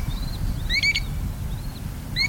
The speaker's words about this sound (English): There are two species of American dowitchers, the long-billed and the short-billed. These plump, brownish shorebirds are maddeningly similar. But if you listen to them,